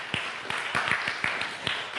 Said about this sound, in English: Let's give dads all a hand clap, right?